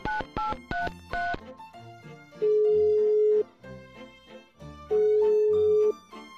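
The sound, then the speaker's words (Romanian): Touch-tone beeps as a telephone number is dialed on a keypad, with several quick key presses followed by a run of electronic tones that includes two long, sustained notes. “Bine, uite, Formez eu și vorbești tu.”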